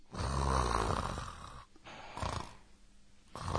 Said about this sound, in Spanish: es alguien roncando, ¿no?